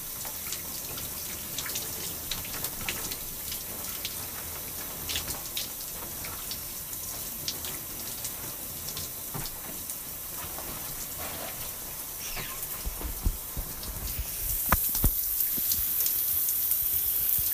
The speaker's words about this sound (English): So that's pretty much it for washing my braids.